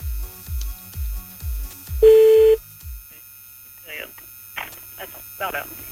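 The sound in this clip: A telephone number being dialed to call someone back: a run of evenly spaced low pulses and one short clear beep, then a pause and people talking briefly.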